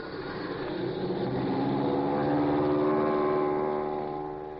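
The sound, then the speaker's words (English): An airplane motor starts up and runs: a rough, buzzing engine drone swells in loudness, its pitch climbing slightly as it revs. It then holds steady and eases off a little at the end. “Well, I think we'd better start. Every minute might count. Okay. Here goes the motor.”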